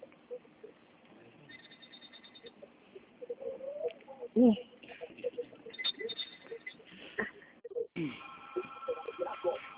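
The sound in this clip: Thin electronic telephone tones signal a dropped phone call, short steady beeps that come and go among muffled, narrowband voices talking on the line.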